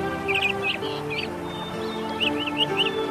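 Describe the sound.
Birds sing in a forest, with short, high chirps and warbling calls coming in small bursts over a steady low background.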